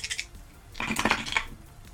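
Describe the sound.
Three six-sided dice are rolled during a tabletop roleplaying game, giving a short bright clatter and then a longer burst of rattling clicks as they tumble and settle.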